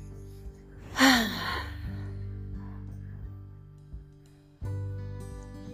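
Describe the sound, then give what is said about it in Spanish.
A single loud, breathy breath marks a guided breathing exercise. It is followed by quiet, soft breathing over a low, sustained musical drone. “Inhala. Uno, dos, tres, sostén. Tres, dos, uno, exhala.”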